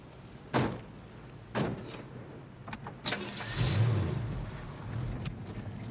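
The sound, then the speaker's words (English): Car doors thud shut as people get into a car, a couple of solid slams followed by lighter clicks, then the engine starts and keeps running. “Darcy and the other young woman, Karen, hop in a car.”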